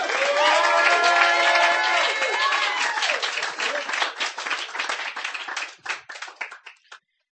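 Audience applause for a performer at a reading: dense, loud clapping with some cheering that gradually thins into scattered, separate claps before dying away at the end.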